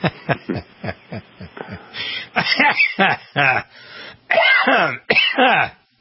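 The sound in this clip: Throat clearing and coughing from a person hacking to clear the throat: a quick run of short, gruff voiced bursts, then several louder, harsher coughs in close succession.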